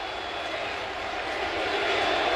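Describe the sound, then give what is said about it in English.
Stadium crowd cheering at Citi Field as fans stand for Pete Alonso's return as an Oriole: a broad, continuous roar with no distinct claps, swelling louder toward the end. “I mean, everyone at Citi Field is standing and cheering for an Oriole. Yeah, it was a wild scene last night. Pete Alonso, his return to Citi Field. That's how it sounded right here on WBAL.”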